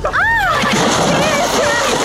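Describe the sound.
A splash of someone jumping into cold water, with continuous splashing and sloshing through the whole clip and a voice crying out over the churning water.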